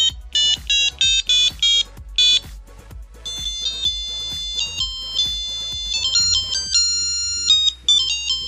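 A self-composed mobile phone ringtone melody plays note by note as electronic beeps, starting with a run of short clipped bursts and then moving to longer held tones over a steady, regular low pulse.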